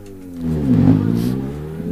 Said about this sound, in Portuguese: Continuo aqui, continuam a chegar os pilotos com os seus carros nesta prova aqui em Santana.